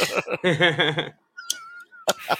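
A cat meows in one long, wavering, drawn-out yowl lasting about a second, followed by a thin steady tone and a couple of short, sharp bursts.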